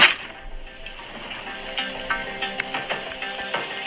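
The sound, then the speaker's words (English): A big fire burns at a gender reveal party, giving off a steady crackling hiss like sizzling with a few sharper pops, with no voices. “Wow, that's a big fire.”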